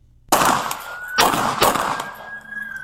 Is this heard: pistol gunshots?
yes